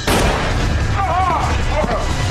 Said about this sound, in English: But he shoots him just in the leg. Because he doesn't want to kill him.